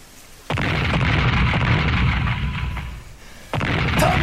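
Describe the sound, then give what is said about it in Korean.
Cannon fire from enemy guns in a battle: two heavy booming blasts, each followed by a long, loud, rumbling roar, with a steady din between them. “적이 화포를 쏴서 연기와 화염이 자욱하였다”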